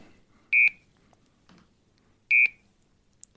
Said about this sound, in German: Das ist das Telefon. Telefon. Unser Studiotelefon, zumindest in Balderschwang. Das klingt so grätzig.